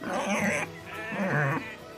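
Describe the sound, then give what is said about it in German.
Two drawn-out, harmonic squealing calls from pigs on a farm at feeding time, each lasting about half a second, separated by a short pause and standing out moderately loud against a faint background. “Als letztes geht sie zu den Schweinen.”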